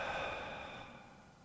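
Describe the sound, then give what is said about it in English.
A slow exhaling breath during a guided breathing exercise makes a soft, airy whoosh that starts at its fullest and gradually fades away, heard alone without talk. “Now hold it there. And exhale.”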